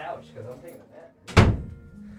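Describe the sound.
A single heavy door thunk, loud and abrupt, as the special door is opened, standing out sharply after a stretch of quieter talk, with voices heard before it.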